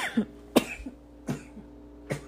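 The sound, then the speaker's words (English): A sneeze amid a few short, sharp bursts of breath, spaced roughly half a second to a second apart and fairly loud against a quiet background, with no talk. “of course, I had to sneeze during my podcast.”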